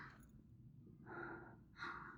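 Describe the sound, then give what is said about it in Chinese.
Snoring from a drunk man who has fallen asleep: two faint, breathy, rasping snorts, one after the other, over a quiet low hum. “这就开始打呼噜了”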